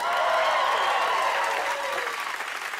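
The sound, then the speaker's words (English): Audience applause at a stand-up comedy show, loud, dense clapping from a large crowd that eases slightly in the second half. “Give it up for my afro!”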